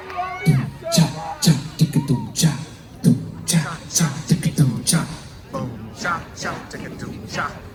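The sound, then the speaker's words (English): Audience at a live show chanting rhythmic vocal syllables, voices imitating the opening sample of a track, many voices repeating short punchy bursts in a steady beat over general crowd murmur. “it starts with a sample from MI that goes boom, chop, chop. We used to just play a track, and we thought, you know what? It's more fun if the audience does that. So can you guys go like this?”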